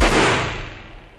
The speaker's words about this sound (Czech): přesně o půlnoci skutečně padnul výstřel z revolveru